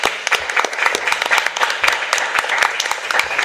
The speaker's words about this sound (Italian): salutiamo con un applausino.